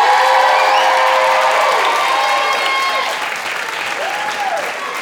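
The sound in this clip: An audience cheers and applauds for a dancer after a routine of African dance moves. Loud sustained clapping carries high whoops and shouts, easing slightly toward the end.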